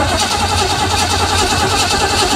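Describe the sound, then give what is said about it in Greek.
A car engine starting and running, a loud, steady mechanical roar with a fast, regular chugging pulse throughout, with no talk over it. “Να ακούσουμε μια μηχανή πώς παίρνει μπρος. Να το ενός αμαξιού.”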